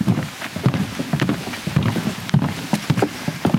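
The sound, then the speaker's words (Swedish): Footsteps on a half-metre-wide wooden boardwalk over very wet marshland in an autumn forest at a Polish border village: many dull, hollow thuds in a steady walking rhythm. “Vi går på en halv meter bred träspång som är utlagd över den mycket blöta sankmarken mitt i den lätt höstfärgade skogen vid den polska gränsbyn Jawowka.”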